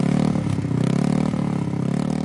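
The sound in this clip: Steady engine drone of a stayer pacing motorcycle in track cycling, a loud, even mid-pitched hum with light clattering layered over it and no clear revving.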